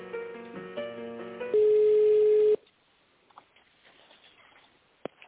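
Telephone line tones play as a call is connected: a quick run of beeps, then one longer steady tone. Near silence follows, with faint clicks and one sharp click close to the end.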